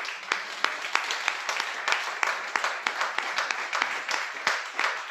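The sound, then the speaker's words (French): Church audience clapping to acclaim the King of Glory during a French-language morning service. Distinct, scattered claps land in an uneven rhythm at a moderate level for several seconds. “Est-ce que tu veux acclamer le roi de gloire ce matin?”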